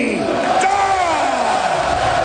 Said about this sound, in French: On entend la foule avec Michel Lacroix